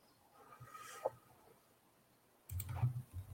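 Computer mouse clicking: a faint single click, then a cluster of louder clicks and low knocks toward the end, all quiet and with no talk.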